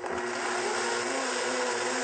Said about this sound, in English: if the blender runs too long, then you heat up the almond milk and that destroys the enzymes. And it's also better for your blender if you stop for about 30 seconds and then go again.